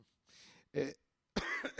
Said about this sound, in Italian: Scusate il colpo di tosse, non è Covid, forse sì, vedremo.